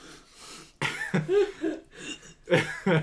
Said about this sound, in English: sorry, something got caught in my throat there.